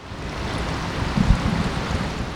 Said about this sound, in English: Water flows into a concrete tank where 18-month-old brown trout dart back and forth as Darren Miller stands nearby at the Les Voigt State Fish Hatchery.